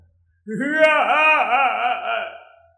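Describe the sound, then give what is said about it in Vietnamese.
A loud wailing cry rings out at night, one long, wavering voice that quivers in pitch and holds for about two seconds before trailing off, heard alone. “Tiếng khóc lớn như sấm, như sóng biển vỗ bờ đá, đình tại nhất ốc. Trong đêm khuya truyền đi đặc biệt xa”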